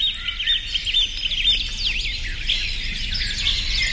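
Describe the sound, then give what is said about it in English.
Birds sing in a steady stream of high, quick chirps and trills that overlap continuously, a bright chorus of birdsong with no voices. “listening to birds sing for 10 minutes can help get rid of your stress. Huh. Okay, let's try this. Cue the birds.”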